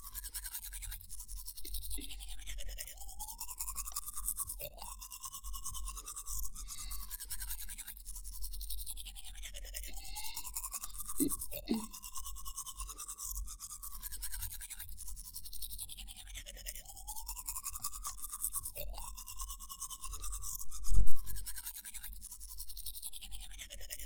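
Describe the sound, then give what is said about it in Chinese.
A mother brushes a child's teeth with a toothbrush: rapid back-and-forth scrubbing strokes recur in a steady rhythm for a long stretch, fairly faint and with no talk. “放轻松，妈妈帮你刷牙哦，别紧张，只要刷干净。”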